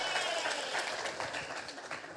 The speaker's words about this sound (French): Ah, bravo, on peut l'applaudir.